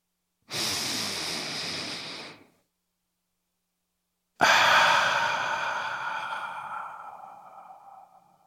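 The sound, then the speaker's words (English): A single deep breath: a long, steady inhale, a pause of silence, then a longer, breathy exhale that gradually fades out. “Let's go ahead and take that deep breath.”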